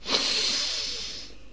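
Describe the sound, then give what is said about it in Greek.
A deep breath is drawn in through the nose during a guided breathing exercise, a single steady, airy hiss that holds for over a second and then fades. “Εισπνοή βαθιά, πάμε.”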